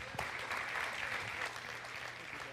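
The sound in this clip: An audience applauds to welcome a speaker, a steady, faint wash of clapping that continues for the whole stretch without clearly separate claps.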